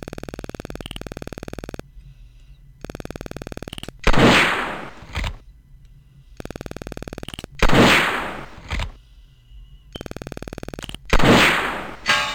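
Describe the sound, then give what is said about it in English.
Three sharp gunshots at a video game shooting range, each a loud burst that decays quickly, separated by stretches of buzzy electronic tones. “You have 18 hits. Out of 48 shots.”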